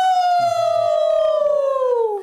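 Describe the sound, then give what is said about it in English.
A human voice imitating a howl: one long, loud, sustained tone that glides slowly downward in pitch and then stops. “I feel like we should just howl for him.”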